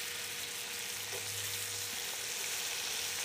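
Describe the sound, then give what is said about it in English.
A pork medallion sears fat side down in a hot pan, giving a loud, steady sizzle and fine crackle that holds evenly from start to finish, with no voices. “So you can just see it's, I put the fat side down. You can see the browning now. It's all starting. It looks great.”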